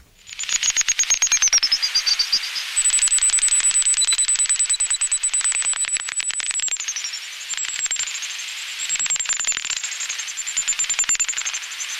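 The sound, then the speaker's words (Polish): Computer-processed bat calls, slowed to be audible: a dense, continuous buzz of rapid clicks with a high whistling tone that dips and slides in places, loud and steady throughout with no voices. “To dźwięk nietoperza, taki dźwięk wydaje nietoperz, to znaczy to jest komputerowo obrobione, bo normalnie ucho ludzkie nie wychwytuje tego dźwięku”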